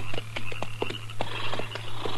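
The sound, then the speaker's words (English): Horses' hooves as riders rein them in on dry prairie ground: a string of irregular clopping beats over a steady low hum, with no voices. “All right, hold it. Pull up them horses.”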